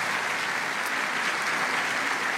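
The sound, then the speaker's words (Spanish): Congregation applauding in welcome during a church service: a steady, even wash of clapping from many hands that holds at a constant level for the whole stretch, with no voices over it. “Les enviamos un abrazo en Cristo y les damos este aplauso de bienvenida también a todos ustedes, santos hermanos.”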